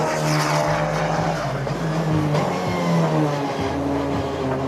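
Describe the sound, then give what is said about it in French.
A race car's engine drives hard out of a corner on a circuit, easing onto the throttle. A loud, harmonic engine drone runs continuously with no pause and no voices over it. “Là, l'accélération, faut faire un peu attention, sinon tu vas chasser, tu vas perdre un petit peu. Donc, assez mollo, l'accel en sortie de virage.”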